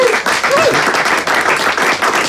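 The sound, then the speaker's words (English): An audience applauds to welcome hurler TJ Reid, with dense, steady clapping that carries on throughout. “Give it up to the one and only TJ Reid.”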